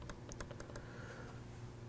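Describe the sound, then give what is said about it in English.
Several crisp computer mouse clicks during a demonstration of a web map with station markers: a quick cluster of dry taps within the first second, then only a steady low hum. “Now, if I click here, nothing happens.”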